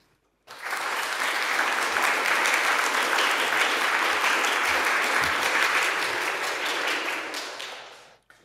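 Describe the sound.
Audience applause welcoming a speaker to a talk: dense, even clapping starts abruptly and holds steady for about seven seconds, then tapers off and stops.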